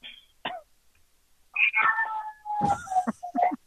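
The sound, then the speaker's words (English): A cat meows several times: a few brief high calls, then longer, loud, wavering meows. “Can't believe you brought that cat.”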